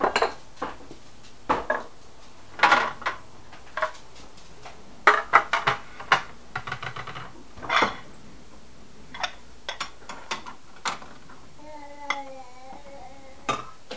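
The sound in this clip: A big spoon clattering against a cupboard and dishes: many irregular clanks and clinks in uneven bursts, some sharp and loud, with brief ringing metallic tones near the end.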